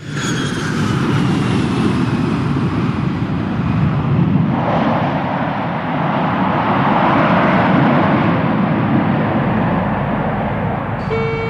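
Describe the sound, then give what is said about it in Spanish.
Steady, loud roar of an airliner landing and taxiing to a stop. The broad engine and rolling rumble holds nearly level throughout, with a slight swell partway through and no voices. “Señores pasajeros, el vuelo 1979 ha arribado a destino. Por favor, permanezcan en sus lugares hasta tanto el avión se haya detenido completamente.”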